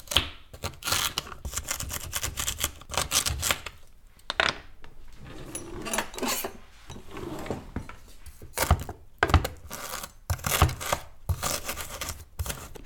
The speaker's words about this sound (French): Voilà, donc on coupe le gingembre en petits morceaux, je le mets dans le bocal